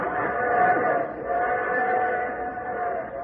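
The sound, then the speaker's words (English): A train whistle sounds as one steady, sustained chord-like tone lasting about three seconds, holding an even pitch and loudness throughout. “What's that, Daddy? It's a train whistle.”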